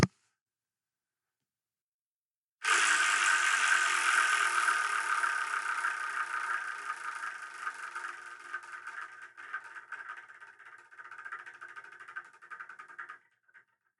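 A spinning wheel clicking as it turns. After a moment of silence it starts abruptly with rapid, dense clicking that gradually thins and slows over about ten seconds before stopping.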